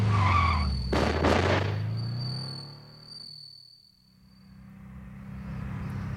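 A car driving off: a low engine drone with a brief, harsh burst of tire noise near the start. A thin, steady, high chirp runs through the whole clip.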